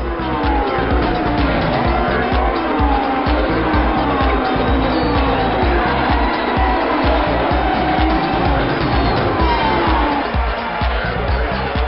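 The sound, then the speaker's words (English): V8 supercars roar around the newly upgraded Barbagallo circuit in Perth. Several engines overlap in a loud, continuous blare, their pitch sweeping up and down as the cars accelerate and shift. “This week on Inside Motorsport, we look back at the V8 supercars at Barbagallo in Perth”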